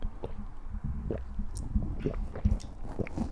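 Wet gulping of a drink swallowed in one go, a steady run of loud swallows and squishy mouth sounds with no talk.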